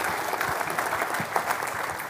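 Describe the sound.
Applause from an audience welcoming a speaker to the stage, a steady wash of clapping at moderate volume throughout.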